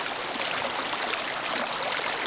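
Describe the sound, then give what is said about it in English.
A calm river flows through spring sunshine, the Tuckasegee at Dillsboro, as a steady, even rush of water, a soft hiss with no pauses or breaks. “The river is tame today, its water warming in the spring sun as fly fishermen wade and cast.”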